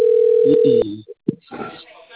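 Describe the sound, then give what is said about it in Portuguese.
Steady telephone dial tone after dialing, a flat mid-pitched hum that holds for under a second and then cuts off, followed by a few brief bursts of a voice speaking. “Disquei.”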